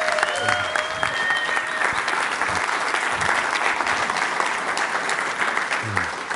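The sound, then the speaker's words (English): Audience applause welcoming a guest pastor: a steady wash of many hands clapping at moderate level, continuous from start to finish. “But if you would, please put your hands together.”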